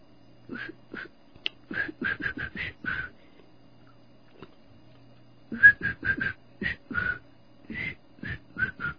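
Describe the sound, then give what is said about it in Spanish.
Someone whistles a tune as many short, clipped, high notes in two quick phrases split by a brief pause, fairly quiet and with no talking. “Digo, se me sale un silbido.”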